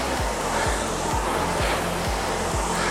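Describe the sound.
A rowing machine flywheel spinning during a hard workout, a constant loud whir overlaid with six regular low surging whooshes, about two per second, one for each stroke.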